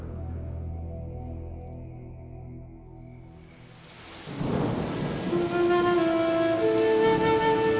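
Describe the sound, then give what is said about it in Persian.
Heavy rain and thunder: a dense rushing downpour and low rumbling surge in about halfway through and stay loud and steady, with sustained musical tones throughout. “قطرهای بارون شلاق میشن و رو تنم فرود میام. چشامو باز میکنم، بالای سرم یه توده میبینم از ابرای سیاه. رعد و برق میزن و بارون تندتر از قبل میباره.”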